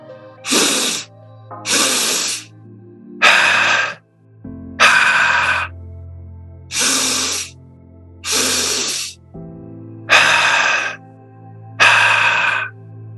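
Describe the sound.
Slow, deep breathwork breathing: eight long, airy breaths, each a loud hissing rush of air, follow one another at an even, unhurried pace. A low hum sits underneath them.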